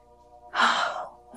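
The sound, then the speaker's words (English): A single deep breath, drawn in and released as one long airy rush of about half a second, heard alone against a faint steady hum. “it's just amazing to just even take that deep breath. It just feels so good.”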